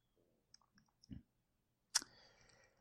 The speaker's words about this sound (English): Episode 1, we'll go ahead and click on that.